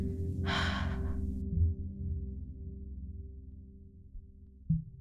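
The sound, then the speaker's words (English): A single deep breath drawn through the nose, a soft rushing breath sound about a second long, heard over a low, steady humming tone that continues after the breath fades. “take one more really deep breath in through the nose. And then let's sigh it out through the mouth.”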